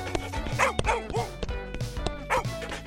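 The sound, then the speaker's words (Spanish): Excited barking and yipping from a playful pet dog running after children playing with a ball, a string of short, sharp barks in quick irregular bursts. “Pero olvidaron que Pipa, su perro, era muy juguetón y empezó a correr detrás de ellas.”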